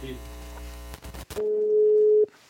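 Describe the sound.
A ringing tone on an outgoing telephone call: after a few brief clicks, one steady mid-pitched tone is held for about a second before it cuts off.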